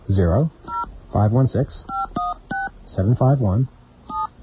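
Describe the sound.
Touch-tone keypad beeps sound as a telephone is dialed to an office line, with several short, even tones spaced between and alongside stretches of talking.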